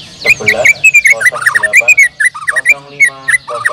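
A white-rumped shama (murai batu) sings a loud, varied song of rapid, clear whistled phrases and sharp chirps. It has many quick notes of shifting pitch, separated by short gaps.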